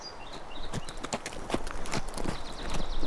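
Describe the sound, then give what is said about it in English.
A saddled horse's hooves clip-clop in a steady, even rhythm of many hard steps. The hoofbeats are heard alone, with no talking, and grow slightly louder toward the end. “Frank rode back to Jerry now and swung down from the saddle”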